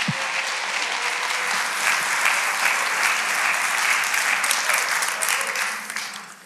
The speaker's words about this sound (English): So come on, put your hands together.